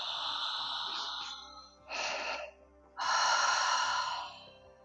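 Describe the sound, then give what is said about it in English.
Deep, slow breathing through a constricted throat during an ocean-style breathing exercise: three soft, airy hisses, a long one, a short one, then a long sustained breath. “So think of yep. And again, inhale.”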